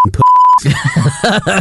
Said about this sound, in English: You definitely can't say that. Well, I'll beep it out.